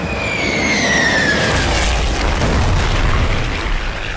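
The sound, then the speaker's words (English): Bomb explosion after an aircraft attack in a wartime scene: a loud, dense rumbling roar fills the whole clip, while a faint high whistling tone glides slightly downward during the first couple of seconds. “Well done, your first bomb, Neodobnov, old fellow.”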